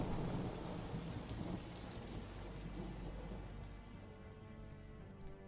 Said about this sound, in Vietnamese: ngoài trời tiếng sấm nổ đi đùng. Từng tia chớp sáng lòa rực lên, rồi sau đó là một màn mưa dày đặc chút xuống.